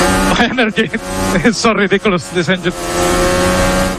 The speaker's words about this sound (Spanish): Uno de los sonidos del fin de semana es precisamente este.